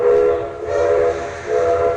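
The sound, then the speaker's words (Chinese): A special train sounds its whistle in a loud, sustained, steady-pitched blast that swells and dips a few times over a rough, noisy rumble, with no voices. “此时专列发出了鸣笛声”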